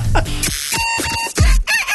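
A person imitates a seagull call in a contest, producing loud, squawking, bird-like cries in a few harsh bursts of strained pitch with no talk over them.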